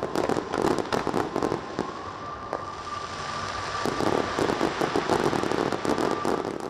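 Fireworks burst at an Olympic Games closing ceremony on a Sunday night, with many sharp pops and crackles in quick, irregular succession over a constant rushing background.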